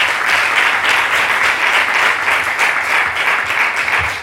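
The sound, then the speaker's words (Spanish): Audience applause at a startup meeting in Archidona welcomes a speaker: dense, steady clapping from many hands, loud and even for about four seconds with no voices over it. “Un fuerte aplauso para Pepe.”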